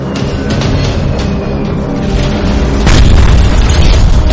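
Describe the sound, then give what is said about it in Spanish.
Depth charges dropped by an aircraft onto a surfaced submarine explode in deep, sustained rumbling booms that surge louder and fuller about two-thirds of the way through. “El avión lanza dos bombas de profundidad.”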